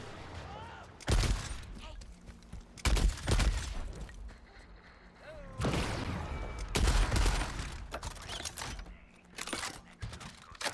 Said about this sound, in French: Alors j'ai pas l'impression que ce soit un shotgun vu comme ça tire hyper loin.